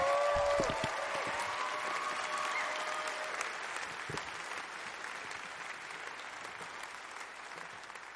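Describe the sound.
Audience applause at a live music show fills the whole clip as a dense, steady clatter of clapping hands. A few fading musical tones sit under it at the start, and the applause tapers slowly toward the end.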